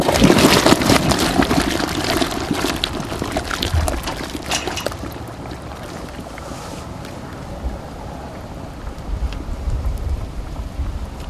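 Water bubbling and churning at a vigorous boil as an item is lowered into it, loud and rushing at first, easing to a softer simmer after a few seconds, then swelling again toward the end.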